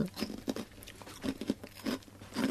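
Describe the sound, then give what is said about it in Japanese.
Someone chews ginshari-flavour onigiri senbei rice crackers, giving several short, dry crunching bursts at uneven intervals with quiet gaps between bites. “ちゃんと今やってる時にその食べるのやめてくれますかちょっと今食べてたじゃん。で、今食べてたよね。私より先に食べてたよね。銀シャリ味美味しいわ。美味しいおにぎりせんべい。”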